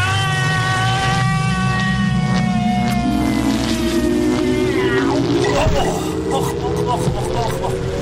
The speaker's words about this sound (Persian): بذاری من این سیمه رو بگیرم تو دستم، این دستگاه هم روشنش کنم، بریم ببینیم که این دفعه سر از کجا در میاریم.